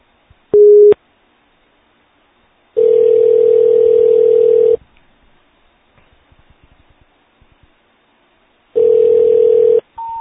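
Ringback tones on a phone line as a number is called: a brief tone, then two long steady tones separated by near silence, with a short higher tone at the very end.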